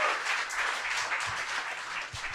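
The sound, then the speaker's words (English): Audience applause in a steady, dense wash of many hands clapping together, continuous and moderately loud throughout without a clear break. “Give it up for him. He's making his dreams come true.”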